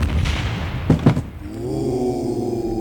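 A staged gunshot fired during a live show cracks out as a short burst of sharp, loud bangs near the middle, breaking through a steady background.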